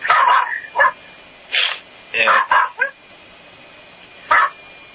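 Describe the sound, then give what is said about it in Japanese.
A pet dog barks in several short, sharp bursts, some in quick clusters and others separated by pauses. “なんか吠えてますけど。 飼い犬がなんかこうやって吠えてます。”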